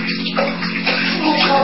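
Water splashing in a small bath, a continuous churning slosh and wash that stays fairly even and loud throughout.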